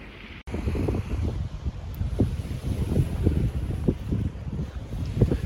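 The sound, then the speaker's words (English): Wind blows outdoors, buffeting the microphone in low, rumbling gusts that swell and ease irregularly throughout, with no voices heard. “I hope you can hear all this with the wind.”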